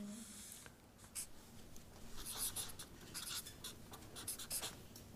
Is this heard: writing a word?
yes